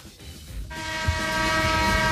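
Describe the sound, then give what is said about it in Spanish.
A horn blares in one long, steady, sustained tone that begins about a third of the way in, after a brief low rumble, and holds loud to the end. “Toca la bocina que te despacho ya.”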